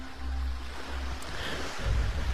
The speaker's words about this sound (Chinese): 真实的大海，真实的海浪，真实的沙滩